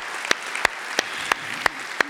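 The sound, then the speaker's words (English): Audience applause for mothers at a Mother's Day gathering, a steady dense wash of clapping with six sharp, evenly spaced louder claps standing out on top of it. “Can we give it up for them?”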